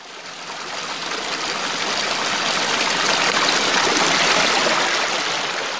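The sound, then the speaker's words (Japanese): Spring water flows steadily from a source in a park in the Tochio area of Nagaoka, a dense, continuous rushing hiss that stays loud and even throughout with no voices. “さあ、私のこの後ろで流れている水の音が皆様には聞こえますでしょうか。”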